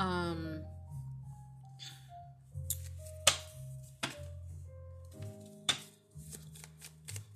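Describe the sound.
A deck of cards being shuffled, with one card popping out: crisp, papery riffles and a few sharp snaps scattered across the passage, set against soft, sustained tonal music.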